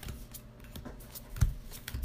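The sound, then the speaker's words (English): A deck of playing cards being shuffled, heard as quiet papery rustling with a few sharper flicks and snaps over a short stretch. “And no, I'm, I'm shuffling. Stacking your deck.”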